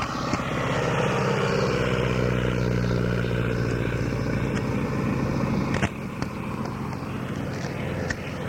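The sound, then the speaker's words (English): Steady, loud propeller-engine drone of a PT-17 biplane taking off, a deep rumbling hum with layered harmonic tones that holds fairly even throughout. “What I mean is a PT-17 on takeoff.”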